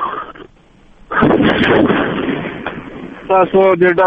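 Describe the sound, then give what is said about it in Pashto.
Gunfire during an attack on a building by suicide attackers, heard as a loud, sustained burst of rough, crackling blasts that rumbles on for a couple of seconds before a man's voice cuts in. “بلې، د ډزو غږونه اورو.”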